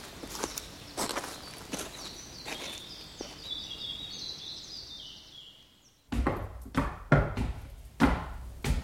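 Footsteps climbing stairs to the first floor of a château: a steady run of firm steps, softer at first, then a short lull before heavier, louder footfalls resume.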